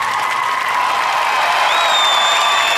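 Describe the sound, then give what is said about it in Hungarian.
Audience applause fills the whole stretch as a boxing ring announcer is called up to the ring, a dense, loud, steady wash of clapping with crowd noise mixed in. “Egy nagyon nagy tapsot szeretnék neki kérni.”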